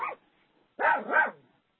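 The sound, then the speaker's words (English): A dog barks in short, yappy bursts: one clipped bark, then two more close together, fairly loud, with no voices. “What was that? Oh, that's your dog, huh”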